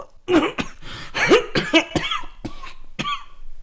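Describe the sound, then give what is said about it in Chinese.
Violent coughing from a person: a rapid run of many harsh, loud, rasping coughs in uneven bursts, some with a hoarse, throaty edge. “幼春又剧烈咳了起来”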